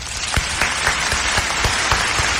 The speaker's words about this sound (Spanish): ¡Bravo! ¡Bravo, bravo, bravo! Querida amiga, este aplauso es para usted.